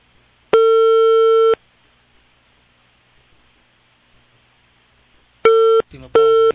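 Busy signal on a call to a village hall's landline, the fifth dialing attempt: a loud, steady electronic tone lasting about a second, a long silent gap, then two shorter bursts of the same tone separated by a brief clicky sound.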